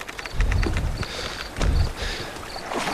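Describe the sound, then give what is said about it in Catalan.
Oars splash and thump as soldiers row a boat toward land: a few low, heavy strokes arrive at a steady, unhurried rhythm, with light knocks and creaks between them. “Estic concentrat en remar.”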